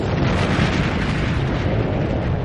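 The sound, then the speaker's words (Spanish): A deep, steady roar from an atomic bomb explosion over Nagasaki: a loud, continuous low rumble with broad noise that holds level throughout, with no voices. “Pocas horas después, una bomba atómica cae sobre Nagasaki.”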